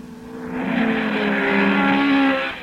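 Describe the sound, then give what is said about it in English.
Sustained roar of high-performance car engines, such as Mustangs, Thunderbirds, Camaros, Barracudas and GTs, racing. It swells in quickly and holds as a loud, steady, harmonic drone for about two seconds before easing off. “That's the sound of high-performance engines. Mustangs, Thunderbirds, Camaros, Barracuda, Super Sports, GTs, many other cars like them.”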